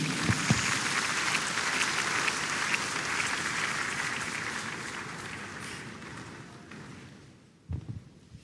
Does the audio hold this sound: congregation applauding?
yes